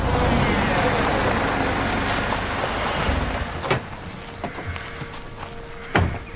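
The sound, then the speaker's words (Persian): A car being driven into a garden gives a steady broad rumbling for the first few seconds, which then fades, followed by a few sharp knocks and a heavier thud near the end. “صدرا سمت ماشین میره و ماشینش رو توی باغ میاره.”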